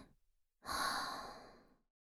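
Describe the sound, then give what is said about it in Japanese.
Human breathing during a guided in-and-out breathing exercise: a faint, brief breath at the start, then one long, airy exhale that swells and slowly fades. The breathing stays fairly quiet throughout. “吐いて。もう一回。吸って。吐いて。”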